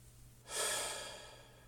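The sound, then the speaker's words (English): A single slow, deep breath, faint and heard alone, swells suddenly and then tapers off gradually. “take a nice, deep breath, letting it out slower than it came in.”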